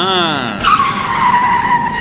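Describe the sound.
Tires squeal as a Follow-Me airport car skids, producing a loud, sustained screech that slides slightly downward in pitch over about two seconds.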